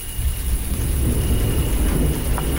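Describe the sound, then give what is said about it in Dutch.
Thunder rumbles low beneath steady rain at night, an even, continuous wash of hiss and deep rumble without any sharp crack. “En die nacht komen de donder en de regen alsnog.”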